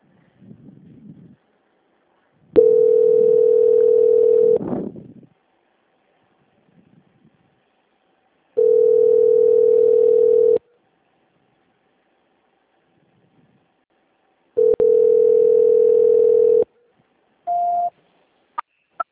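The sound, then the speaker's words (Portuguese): Telephone ringback tone sounds while a call is being transferred: three long, steady mid-pitched beeps of about two seconds each, separated by silence, then a short higher beep at the end, with a faint murmur before the first tone. “Espera aí que eu vou transferir de novo para lá. Tá. Transferência.”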